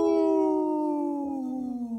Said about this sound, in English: Howling for Wolves, protecting wolves for future generations. Howl! Howl!